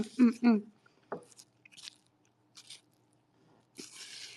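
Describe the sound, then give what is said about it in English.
Chewing during a quick meal: a brief vocal sound at the start, then a few soft, sporadic crunching and munching bursts separated by near silence. “Delicious quick meal. Yeah, this is the first thing I've eaten aside from pink coffee.”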